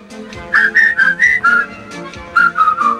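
People whistle a tune: clear, bright notes in short melodic phrases, with a brief pause between two runs of notes and no other sound.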